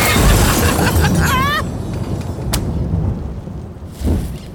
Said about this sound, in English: Whatever. I'm gonna light this thing again. And don't you dare stamp it out this time.